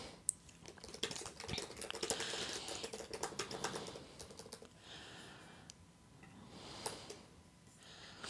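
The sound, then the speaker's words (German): Typing on a keyboard while writing gives quiet, rapid, irregular clicking that comes in bursts separated by brief pauses, with no talk over it. “Ich schreibe nebenbei ein bisschen.”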